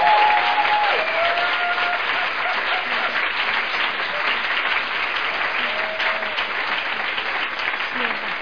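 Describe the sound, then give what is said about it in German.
Loud, steady applause from an audience at a church worship service forms a dense, even wash of clapping that carries on without a pause. “Lass uns mal einen großen Applaus dem Herrn geben.”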